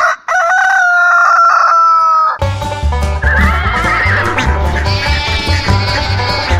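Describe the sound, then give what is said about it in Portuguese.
Farm-themed intro jingle that opens with loud crowing and neighing farm-animal sounds, then bursts into loud full-band music with heavy bass and a bright melody. “solta a vinheta aí.”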